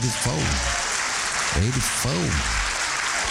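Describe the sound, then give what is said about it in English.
Audience applause at a comedy show, steady clapping running throughout with a voice talking over it. “Y'all can clap. Come on.”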